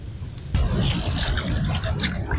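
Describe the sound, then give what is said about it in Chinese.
Water sloshes and splashes as freshly picked wild ginger flowers are soaked and rinsed, a steady fizzy wash of sound that starts abruptly after a brief quieter moment and continues throughout. “新鲜的野姜花刚采摘下来，稍微浸泡清洗，接着一只只修剪，放进花器。”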